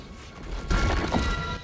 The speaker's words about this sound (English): A chunk falls from in front of Diego and plunges into the lava.